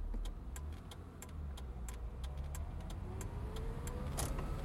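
A car drives along with a steady low engine rumble, with a series of light ticking clicks layered over it.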